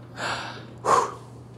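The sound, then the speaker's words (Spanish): Two deliberate breaths taken at will, the first a softer airy intake and the second a sharper, louder gasp, alone with no talk. “Y aquí, cada vez que hago así, a mi voluntad, respiro.”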